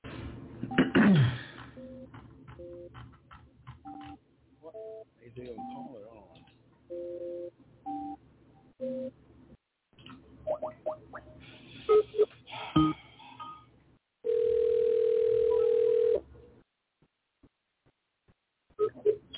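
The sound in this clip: Telephone keypad tones dial out to call a caller back as a series of short beeps at varying pitches. A long, steady ringing tone follows later, with people talking and other noises around the tones.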